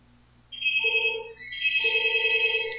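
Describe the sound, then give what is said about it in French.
A telephone rings with an electronic ringtone of high and lower tones sounding together, in two ring bursts separated by a brief gap, moderately faint with no talk. “C'est le téléphone, mais c'est un numéro qu'on ne connaît pas.”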